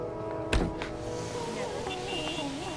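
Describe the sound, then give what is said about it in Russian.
Slow-moving car traffic on highways, a steady broad rumble of engines and road noise with one sharp thump early on, under a voice speaking. “Трассы заполнены машинами, которые медленно движутся вперед.”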